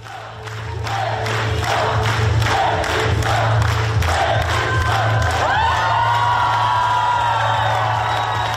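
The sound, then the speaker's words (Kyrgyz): Theatre audience applauds at the end of a premiere of the tragedy Romeo and Juliet. Dense, loud clapping is joined by crowd cheering and shouts, continuous throughout with rising whoops toward the end. “Оюн бүткөндөн кийин чыгармачыл жамааттын эмгегин кол чабуулар менен сүрөп алышты.”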